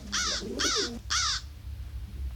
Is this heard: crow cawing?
yes